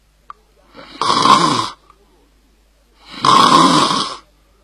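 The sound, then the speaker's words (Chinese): A young man snores in his sleep, two rasping, buzzing snores separated by a quiet pause, the second longer than the first, alone without any talk. “时间不大，打了呼噜”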